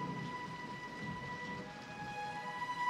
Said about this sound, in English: As rain continues to fall